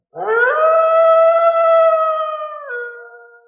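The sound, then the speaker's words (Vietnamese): A single long, wolf-like howl echoing through mountains rises quickly, holds a loud, steady, clear tone for over two seconds, then steps down lower and fades out. “Đột nhiên một tiếng như chim hót lại giống như sói tru truyền ra, chấn động cả dãy núi.”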